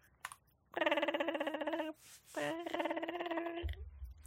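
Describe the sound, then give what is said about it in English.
A telephone rings in two warbling, trilling bursts of roughly a second each, separated by a short gap, followed by a brief low thump at the very end. “That's the phone noise. I hate it.”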